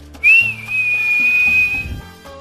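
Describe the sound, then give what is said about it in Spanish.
Eerie whistle of the legendary Silbón creature: a single high, sustained note that rises quickly, dips slightly, then holds nearly level for over a second before cutting off, over a low background. “el cuento del silbón. Un ser que silba y cuando se le escucha cerca, es porque está lejos, y cuando se le escucha lejos,”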